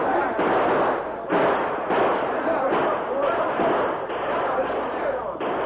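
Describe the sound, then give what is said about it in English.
Gunfire in a Western shootout as trapped outlaws try to fight their way past a posse: many rapid, overlapping shots and thumps in a dense, loud barrage with hardly a pause. “The outlaws tried to fight their way out of the trap, but they became panic-stricken as the bullets flew thick and fast.”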